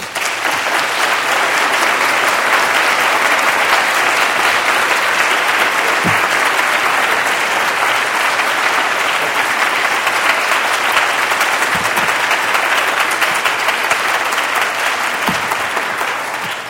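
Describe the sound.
Sustained audience applause welcoming architect Demetri Porphyrios at a Whitman College lecture, a dense, even wash of clapping that stays loud and steady throughout before tapering only slightly at the end.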